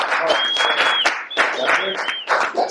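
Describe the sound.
Audience applause and cheering for a guest introduced on a hip-hop talk show: dense, steady clapping with a high, sustained whistle running over it.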